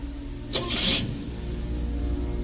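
A car engine runs with a low, steady hum as the car pulls away, broken early by a short, bright whooshing burst before settling back to an even drone.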